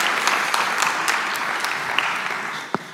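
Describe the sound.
A chapel audience applauds to welcome a guest speaker, with a full, steady wash of clapping and a few sharper individual claps standing out, ending with one brief louder click.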